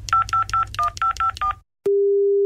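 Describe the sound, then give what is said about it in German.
Telephone keypad tones as a number is dialled: seven short, evenly spaced beeping tones over a low rumble, then a brief silence and a steady, continuous low tone. “Moment, ich wähle mal.”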